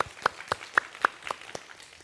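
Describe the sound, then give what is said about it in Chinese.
Rhythmic clapping during a church service, given as applause for Jesus. It is a steady run of evenly spaced, crisp claps at a brisk, regular beat, with a faint murmur underneath. “要不要给耶稣一个掌声？”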